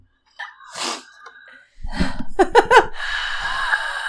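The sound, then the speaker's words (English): Heavy breathing straight into a microphone: loud, rough breaths with a few short snort-like bursts, then a sustained breathy rush. “Can you just breathe real heavy in there?”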